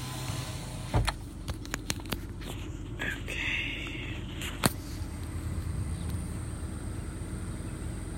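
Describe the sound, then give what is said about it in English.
A car's electric window lowers with a brief whining motor hum, preceded by a few soft clicks and thumps, over a low continuous engine rumble. “Let me put down this window.”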